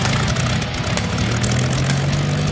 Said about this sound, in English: we're rolling the Wayback Machine over 100 years with a visit to the vintage and golden aircraft of the past. There's no time to lose, so let's crank them up.